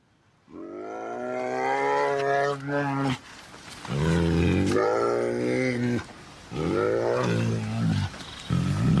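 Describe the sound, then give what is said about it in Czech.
A bear roars and growls in three long, loud, throaty bursts, each deep and strongly voiced with a rough, rasping edge and short pauses in between. “A vy už určitě tušíte, co to za zvířátko v pozadí je, a ano, správně, je to medvěd.”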